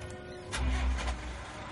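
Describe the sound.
A van engine starts at night in heavy rain, a brief low rumbling surge lasting under a second that then eases back to a quieter hum.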